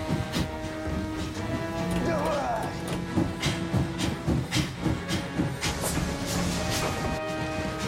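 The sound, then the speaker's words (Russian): A steam locomotive racing forward at full steam, with a steady hissing rumble broken by rhythmic chuffing bursts that grow more pronounced in the second half. “Паровоз на всех парах несется вперед.”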